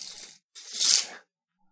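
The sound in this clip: A tape measure is pulled out and handled, making two raspy, hissing pulls. A short pull comes first, then a longer and louder one, followed by silence.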